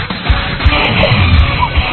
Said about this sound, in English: The squeak of the sneakers, the swish of the nets, bounce of the ball, and amped up crowd can only mean one thing. It's time for high school basketball on 92.1 KMTA.